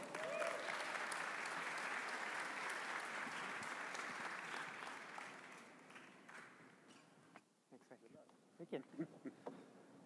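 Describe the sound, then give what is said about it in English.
Loud audience applause welcoming a speaker onto a business event stage: dense, sustained clapping that gradually thins and fades out after about seven seconds, leaving a few soft scattered sounds. “So let's give a warm round of welcome to Lenny Kwan.”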